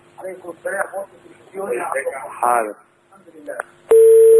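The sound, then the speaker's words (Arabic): A steady telephone tone starts abruptly after a caller's line is cut off, following several stretches of people talking, and then holds loud and unbroken to the end. “انت ما وطيتش التلفزيون، انت قطعت الاتصال. انت عاود ان شاء الله الاتصال”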